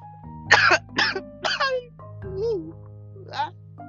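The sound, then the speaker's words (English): Coughing and throat clearing from someone with a tickle in the throat: a few short, rasping bursts close together, followed by softer throat sounds. “Sorry, I just had a little tickle in my throat.”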